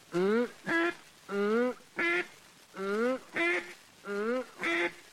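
Quacks blown on a duck call in imitation of a duck: eight nasal, buzzy notes in four evenly spaced pairs, each pair a longer quack followed by a shorter, clipped one, loud and alone.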